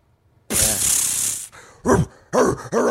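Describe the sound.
A super soaker water gun sprays in a loud, rushing hiss lasting about a second, then a person imitates dog barks and growls in a few short, rough vocal bursts.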